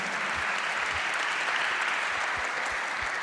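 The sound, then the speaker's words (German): Big round of audience applause at a church gathering as a guest's wife is welcomed. Dense, even clapping sustains throughout at a steady level, with no talk over it. “Gib dir einen großen, großen Applaus.”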